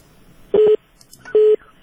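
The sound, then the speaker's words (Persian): Two short, steady telephone-line tones as a caller is put through to a radio call-in: evenly pitched beeps separated by a pause, with no voices. “بریم به شنونده بعدی ما از طریق تلفن و بعد از او هم برخی پیام های شما.”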